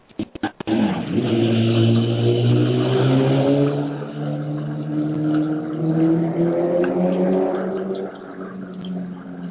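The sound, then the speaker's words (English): A loud car engine roars past after a few sharp clicks at the start, its harmonic drone swelling quickly, then sliding gradually lower in pitch and easing slightly in level, with no talk. “did you hear that loud noise? It's a motorcycle or something. Car, yeah.”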